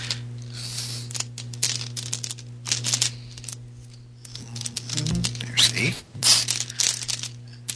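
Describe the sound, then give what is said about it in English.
Many dice rattle in a bag as a hand digs through them, a run of dry, irregular clicks and clatters over a steady low hum, with a louder jostling burst near the end. “So many dice in this bag, it's hard to pick out the eights.”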